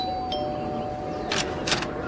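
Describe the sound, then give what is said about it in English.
A doorbell rings with two quick chimes, faint over a steady background hiss. “You better ring the bell.”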